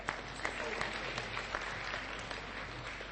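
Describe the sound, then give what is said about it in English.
Applause for a couple at a church service: dense, steady clapping from the audience that holds an even level throughout. “So in their absence, let's also give a big hand to JP and Lisa Marais.”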